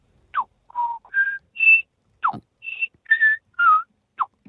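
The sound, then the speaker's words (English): A person whistles an imitation of a tui bird call: a lively run of many short, varied notes, some clear steady tones and some quick sliding sweeps, separated by brief gaps, with no voices. “You reckon you can do a tui? Okay. Can we hear your tui just quickly? Because tuis seem difficult.”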